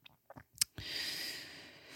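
Chewing while eating: a few moist mouth clicks and smacks, then a soft, continuous hiss of breath and mastication, fairly faint.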